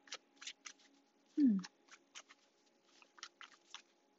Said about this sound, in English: I finished shuffling at the bottom of the deck.